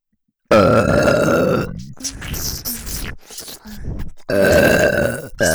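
Two long, loud, deep burps open and close the sequence, with softer breathy, grunting sounds between them.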